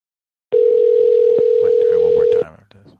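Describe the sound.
Telephone tone on a call placed to leave a voicemail: one unbroken, steady, loud tone lasting about two seconds, with voices murmuring beneath it, then fading to soft noise.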